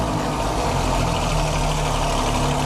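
Alfa Romeo Giulia GT car engine idling, a steady low rumble with a dense, even hum that holds at the same level throughout without revving.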